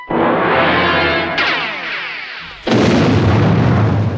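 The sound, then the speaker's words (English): A ship blowing up after opening fire: three heavy explosions, each a loud booming burst trailing into a long rumbling decay, with the last blast the most forceful. “And I do like that the recap just ends with the ship blowing up.”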